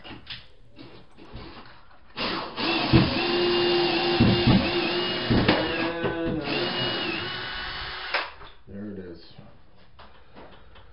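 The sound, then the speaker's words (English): A power driver backing out 3-inch screws: a steady whirring whine lasting about six seconds with load fluctuations. Quieter knocks and handling sounds come before and after it. “I'd rather have Torx type of bits, but the guys that have put this in, I think there were 3-inch screws. So, anyways, they're gonna be coming out.”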